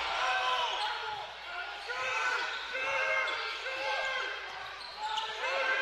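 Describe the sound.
A basketball dribbled on a court during a game, dull bounces sounding under a man's steady play-by-play voice.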